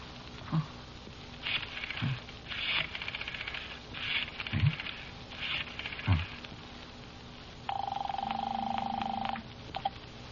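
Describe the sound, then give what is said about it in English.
Telephone dialing of a number, heard as a few separated bursts of mechanical clicking, then a steady buzzing tone of about a second and a half, and a final faint click. “Dial 3333, sir.”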